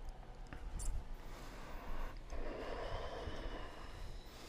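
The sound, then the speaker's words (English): Nasal breathing during a hot yoga class in child's pose: a few rough, snorting breaths drawn in and pushed out through the nose, over a steady low background rumble. “So suck the air in through your nose. Push it out through your nose.”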